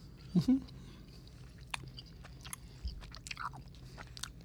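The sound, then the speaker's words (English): Chewing on a cherry punch flavoured snack with a filling in the middle: one loud crunchy bite near the start, followed by softer, scattered chewing and crunching sounds. “I'm going to take another bite here.”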